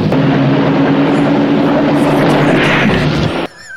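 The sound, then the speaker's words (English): Loud helicopter engine and rotor drone from a movie scene of police pursuing a man in a boat; a dense, steady roar with a low hum holds throughout, then cuts off abruptly near the end. “It's a helicopter.”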